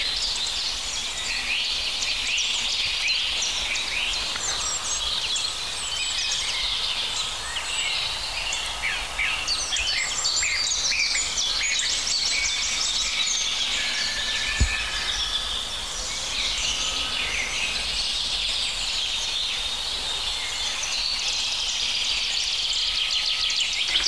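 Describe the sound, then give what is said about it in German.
European robins sing in many thin, high twittering and warbling phrases that continue throughout over a soft background hiss, broken once midway by a brief sharp knock. “Schöne Rotkehlchen.”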